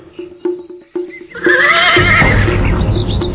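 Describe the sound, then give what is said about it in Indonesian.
A horse whinnies loudly in a long, wavering neigh lasting nearly two seconds, after a few hoof clops. “Rake Hambulu melompat turun dari punggung kuda”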